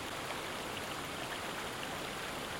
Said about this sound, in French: Il arrive enfin au sommet d'une cascade. L'eau dégringole dans une chute vertigineuse.